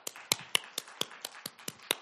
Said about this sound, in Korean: 박수 한번 쳐보세요. 한번 박수.